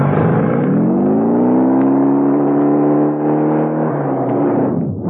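A messenger's motorbike speeding away: a loud, sustained engine drone with a strong, steady harmonic tone that holds nearly level throughout, then dips briefly at the very end.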